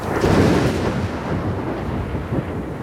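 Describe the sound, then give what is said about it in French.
Thunder follows a lightning strike about 1.5 km away: a deep, continuous rumble, heaviest in the first second, then rolling on at a steady, slightly lower level to the end. “Il y a eu 4 secondes entre l'éclair et le tonnerre”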